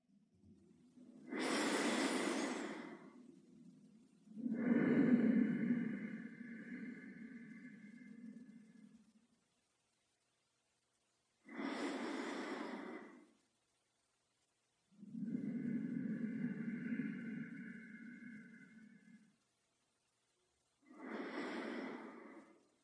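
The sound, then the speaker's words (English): Slow, rhythmic breathing through the nose, quiet and unhurried. Short, airy inhales alternate with longer, softer exhales, separated by brief pauses. “So let's just breathe a few low and slow and rhythmic breaths through the nose in preparation.”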